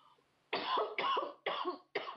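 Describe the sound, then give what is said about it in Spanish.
A person coughs four times in quick succession, each a loud, harsh, rasping burst with short gaps between, heard alone without talk. “cuando la tos lo permita”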